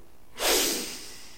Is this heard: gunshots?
no